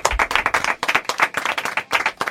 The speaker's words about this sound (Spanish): Yo propongo un aplauso a los chicos de Arcadia Gamers.